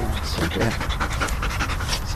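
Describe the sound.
A female Belgian Malinois search-and-rescue dog pants in a steady, fast run of loud, breathy pants.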